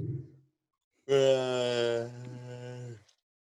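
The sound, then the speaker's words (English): A quiet yawn: one drawn-out voiced breath holding a steady low tone for about two seconds, starting strong and softening before it trails off. “just yawn quietly? There it is.”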